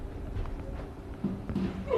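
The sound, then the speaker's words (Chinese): Volleyball jump serve being struck hard: a couple of soft thuds come first, then a loud, sharp smack of the ball bursts out right at the end. “大力的跳发，冲击力很足，对方直接把球垫过来”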